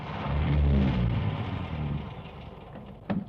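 A car engine rumbles steadily and deep, loudest at the start and slowly easing off, with one brief knock near the end. The car is being fetched to rush an injured person to hospital.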